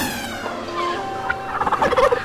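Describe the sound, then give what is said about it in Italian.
Turkeys gobble in a loud, warbling chorus of rapid, burbling calls that grow denser and more choppy toward the end, with no talk over them. “Turkey, il massaggio con tacchini. Coricati nella vasca e lascia che i pennuti con i coglioni in faccia si occupino di te.”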